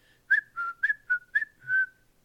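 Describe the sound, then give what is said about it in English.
A person whistles a short tune of several brisk notes, then holds a longer final note. The pitch stays clear and fairly level with slight glides between notes, and no other sound competes. “People whistle while they work”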